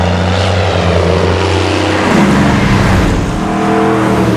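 An airplane flies overhead, a loud continuous engine drone with broad rushing noise and low throbbing tones that swell slightly midway and hold steady to the end.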